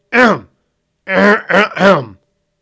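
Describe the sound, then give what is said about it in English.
A voice clears its throat: a short voiced rasp, a pause, then a longer throaty ahem in three quick pushes, loud and alone, imitating the sound of someone clearing their throat. “Bartholomew cleared his throat.”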